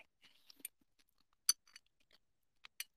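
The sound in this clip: Crunchy chewing of a mille-feuille pork cutlet, a fried layered pork katsu: a few sharp, crisp bites scattered across otherwise quiet gaps.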